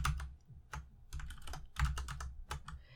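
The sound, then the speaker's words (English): Fast typing on a clacky Cooler Master Quickfire mechanical computer keyboard produces many quick, crisp key clicks in an irregular rhythm, fairly quiet overall, with no voices. “So how about that clacky clacky keyboard? What kind is it? Oh, so this clacky clacky keyboard”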